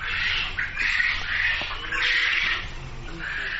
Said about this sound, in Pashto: خبرې د مړز په غږ پیلېږي